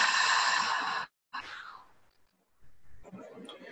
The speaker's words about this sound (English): One more deep breath in through the nose and out through the mouth.